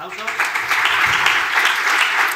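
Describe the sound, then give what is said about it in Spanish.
Audience applause welcoming a presenter at a talk on geographic databases: a continuous, even patter of many hands clapping that stays at a steady level throughout. “¡Aplausos!”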